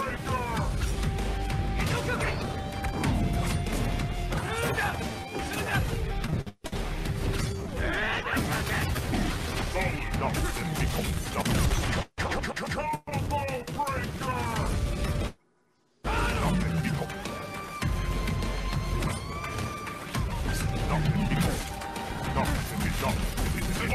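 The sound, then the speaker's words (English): A combo breaker in a fighting video game featuring Jago, with dense, continuous game audio full of crashing hits, thwacks and mechanical clanks, broken by a few short silent gaps. “With a succession of 5 times, you have to break it. Jago took the first round. There was a combo breaker.”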